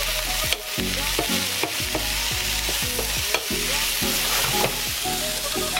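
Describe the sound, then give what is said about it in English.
Food sautés in a pan with a steady, continuous sizzle, broken by many regular stirring scrapes in an even rhythm. There is no talking. “We're gonna let this saute for about 4 to 5 minutes.”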